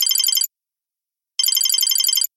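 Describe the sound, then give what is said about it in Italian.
A telephone rings twice, each ring a bright, high electronic trill. The first is short and cut off at the start, then a pause of about a second before a longer second ring. “quando squillò il telefono”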